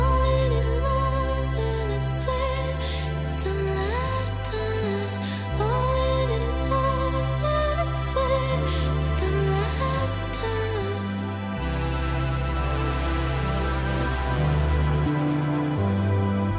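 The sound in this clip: Big synth lines from a song: sustained synthesizer chords over a deep bass that shifts pitch every second or two, with brighter melodic figures weaving above, loud and steady throughout with no voices.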